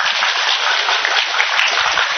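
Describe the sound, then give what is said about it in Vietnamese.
An audience claps at a Buddhist dharma gathering in Atlanta, a dense, continuous patter of many hands lasting about two seconds at an even level, sounding somewhat muffled and thin in the highs. “Có ai muốn vỗ tay đi.”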